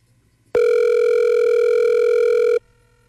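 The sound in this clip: A telephone tone plays as a call is being dialled: one steady, loud, buzzing tone that starts abruptly, holds evenly for about two seconds and cuts off sharply, with nothing else around it.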